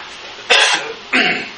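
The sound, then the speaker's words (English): Two sharp coughs about half a second apart, each a brief, loud, harsh burst of breath, with quiet background between them. “Rock in my throat. I hope that's what it is. So, why am I coughing?”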